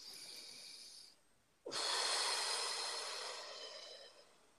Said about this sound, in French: Une respiration.